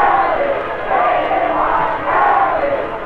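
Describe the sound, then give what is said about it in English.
A huge crowd of more than 500,000 celebrates victory in Times Square, New York, roaring loudly and continuously in rising and falling surges of massed voices. “People who have seen Times Square celebrations before declare that this is the biggest spectacle in New York history. Estimates of the crowd go beyond 500,000.”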